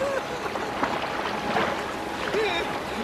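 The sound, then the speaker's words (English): A rowboat is rowed across water toward a man clinging to a wet tree trunk, with soft, continuous water splashing and oar movement and brief vocal sounds at moments. “Miller rows over to Jerry.”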